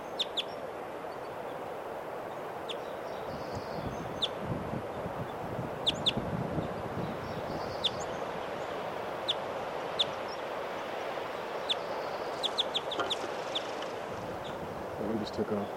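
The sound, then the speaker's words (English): Faint bird calls from birds foraging on the ground: short, sharp chirps at irregular intervals over a low background murmur, with a few clustered bursts of calls. “Here's a bird. It's just by himself, kind of. And yeah. Another bird.”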